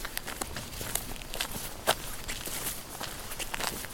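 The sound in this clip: Footsteps of someone walking over: an even series of soft scuffing steps at a steady pace, one sharper step standing out midway, with no talk over them.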